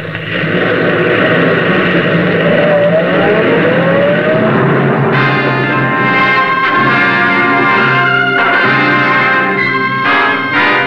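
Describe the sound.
A car engine drones steadily as the car drives toward the George Washington Bridge while low on gas. The loud, continuous hum shifts pitch as it rises and settles, with no pauses throughout.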